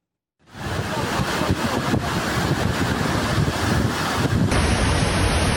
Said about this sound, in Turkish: Dere taştı, caddeler, sokaklar göle döndü.